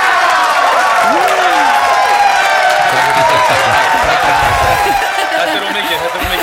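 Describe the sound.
Audience clapping and cheering, a sustained wash of crowd noise with applause played in a studio to celebrate the release of a national festival song, staying loud and even throughout before easing slightly at the end.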